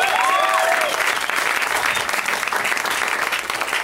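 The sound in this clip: An audience applauds with dense, continuous clapping, loud and even for about four seconds before easing slightly at the close.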